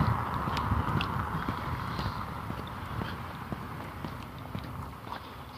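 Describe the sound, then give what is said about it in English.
A metronome ticks as a run of faint, sharp clicks in a fairly steady rhythm over a low background hiss. “I do have the metronome going.”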